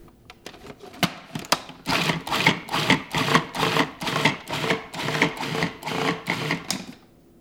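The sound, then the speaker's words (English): Knife chopping herbs, onions and garlic, a steady run of many quick, even strikes after a few scattered sharper taps at the start. “we're going to chop up those herbs, onions, and garlic before we add the chickpeas.”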